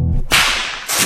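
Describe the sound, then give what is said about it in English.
A whip cracks as its tip breaks the sound barrier, a small sonic boom. It is one sharp, loud, bright snap with a noisy tail, followed by a second burst just after. “is a whip. The sound you just heard was literally a sonic boom”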